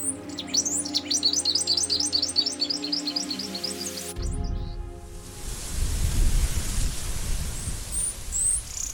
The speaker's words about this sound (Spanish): Como gorrión montes paisa, un ave que habita la cordillera del norte antioqueño